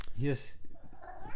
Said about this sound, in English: Hi, little kitty cat.